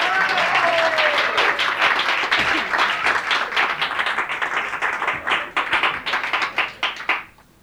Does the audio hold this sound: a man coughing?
no